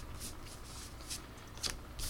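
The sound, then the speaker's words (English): Playing cards being shuffled for a card reading: a few soft, papery riffling bursts spaced apart, quiet, with no talking. “I want to draw four cards. I want an overview. I want an overview of the week.”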